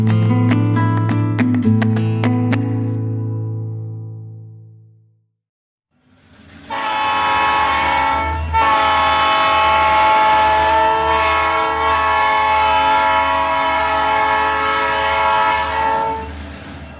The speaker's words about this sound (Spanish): Estamos escuchando el sonido de un tren porque está llegando a la estación.